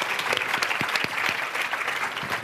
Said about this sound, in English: give Jess a big hand, a round of applause